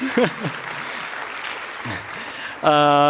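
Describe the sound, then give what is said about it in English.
Audience applause at a technical talk about radio and Bluetooth signals: a steady wash of clapping with a voice near the start and again briefly later, cut off by a loud, sustained buzzing tone at the end. “Please, a round of applause, because he was one of the guys that made me start this.”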